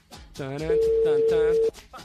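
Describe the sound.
A telephone ringback tone sounds on an outgoing call as a single steady, mid-pitched tone lasting about a second. It plays over a person who is talking.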